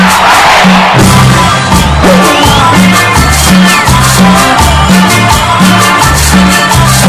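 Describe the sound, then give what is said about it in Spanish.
Arena crowd shouting and cheering at a live concert: a dense, loud roar runs throughout over pounding music with a steady, rhythmic bass beat. “Y grita Luna Park.”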